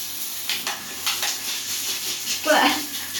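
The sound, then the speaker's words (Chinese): Hot water from a shower runs as a steady, broad hiss of spray, with a few brief bursts and a short voiced exclamation near the end. “等等啊，起来，你让一下，我把水打开。”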